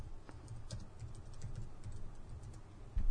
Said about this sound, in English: Here, let's just fucking type it in.